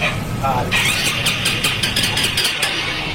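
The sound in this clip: A stalled motorcycle's starter cranks without catching, with rough mechanical whirring and a run of rapid, uneven pulses in the second half over steady engine-like noise.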